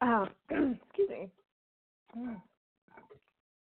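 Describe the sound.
A person clears their throat in several short, rasping, voiced bursts, three close together and then two more after a pause, fairly faint.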